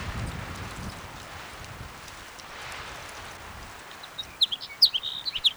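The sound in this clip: A house sparrow calls with a few short, high chirps in a quick irregular cluster near the end, after several seconds of steady wind noise.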